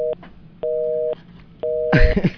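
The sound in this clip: A telephone busy tone sounds after a call is ended: steady, mid-pitched beeps repeat in an even on-off rhythm, with two full beeps and a clipped one at the start. A voice breaks in over the last beep.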